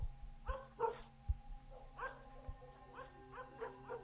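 Dog barking and yipping at night in a series of short, sharp bursts, some closely paired and others spaced out, mixed with a few dull low thumps.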